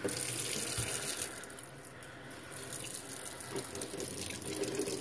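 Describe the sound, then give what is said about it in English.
Hands washed under a running tap: a continuous, fairly quiet rush of water pours into the sink with small splashing changes. “I have not even washed my hands yet. Let me wash my hands first.”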